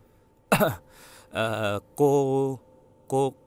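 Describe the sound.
Dry coughing and throat clearing from an elderly man at the dinner table after setting down his bowl and chopsticks: four short, rasping, voiced bursts with brief gaps between them.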